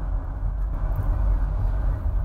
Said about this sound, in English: Oh, cars! Oh, no. Other cars! Gosh. They're going super slow because they're on a hill.